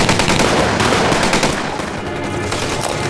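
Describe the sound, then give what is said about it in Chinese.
Loud, sustained gunfire as a squad opens fire on command: dense, rapid bursts of shots run together into a continuous roar that stays strong from start to finish, with no talk. “别动队，开枪！”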